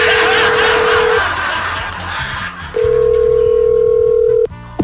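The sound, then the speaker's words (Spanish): Telephone dial tone after a call disconnects: a steady mid-pitched hum sounds for about a second, pauses, then returns longer over a constant noisy background, ending with a brief click. “Creo que se desconectó la llamada, señor.”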